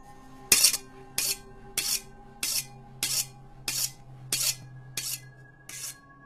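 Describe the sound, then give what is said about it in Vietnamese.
Knives being sharpened in a stuffy, closed-in basement: nine evenly spaced, harsh rasping strokes, each a bright scrape that fades quickly, in a steady unhurried rhythm. “tiếng chúng nó mài dao nghe rợn cả người.”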